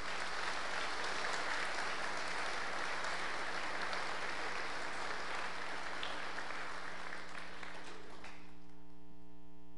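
Audience applause welcomes the Yuan family at Parkview: dense, sustained clapping for about eight and a half seconds that stops abruptly, leaving a steady mains hum.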